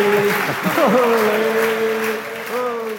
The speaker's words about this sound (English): Lads, could you put your hands together for our first two panel guests, Eimear Considine and Dave Denton.